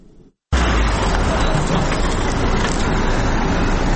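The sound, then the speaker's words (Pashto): Vehicles loaded with medical and non-medical supplies and medicines in Uruzgan give off a loud, steady engine rumble. It starts abruptly after about half a second of faint sound and continues unbroken to the end. “دا ژغونه د هغه موټرو دي کوم چې په طبي او غیر طبي وسایلو او د غراز په درملو باندې بار دي.”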